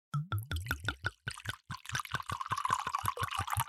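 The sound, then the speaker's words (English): White wine pours from a screw-top bottle into glasses, starting with a few quick glugs and then settling into a steady, splashing stream that fills the glass. “All right, so we are both now pouring our glasses of white.”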